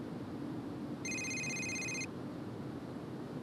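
A telephone rings once with an incoming call, a single electronic ring of bright, high stacked tones lasting about a second, faint and alone over a low background hiss.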